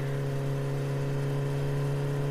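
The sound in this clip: A car engine drones as the car speeds along, a constant low hum with a mid-range whir that stays at an even, fairly quiet level throughout.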